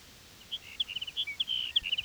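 Sage sparrow song from a colony: a faint, rapid run of thin, high chirping notes that tumble together and grow busier toward the end, over quiet background noise.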